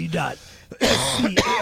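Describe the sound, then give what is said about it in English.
Harsh coughing and throat clearing from a green bean stuck in the throat: a few rough, breathy bursts mixed with vocal sounds, with one sharp cough standing out near the end. “I got a green bean stuck in my throat.”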